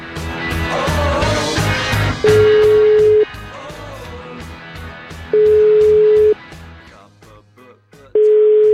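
An outgoing telephone call rings through the line: three long, steady electronic tones, each lasting about a second and separated by pauses of roughly two seconds, follow a stretch of busier, mixed sound.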